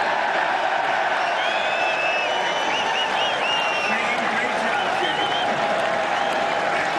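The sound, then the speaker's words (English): Loud applause and cheering from an audience at a golf tournament at a resort in Doonbeg, Ireland: a dense, continuous roar of clapping that holds steady throughout, with scattered whoops rising above it. “Yeah, you hear the applause there.”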